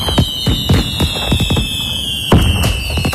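Fireworks burst at an evening show in the skies over the Paris region: many sharp bangs and crackling pops in an uneven rhythm, loud, with a steady high whistling tone running under them throughout.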